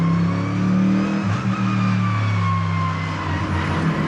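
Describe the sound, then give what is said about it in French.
A Mercedes-AMG GT3 race car's engine at full throttle in the pit lane of the Albi circuit, a loud, steady drone with strong, stable harmonics. “50 km/h, je suis gaz à fond, je lâche et ça part direct.”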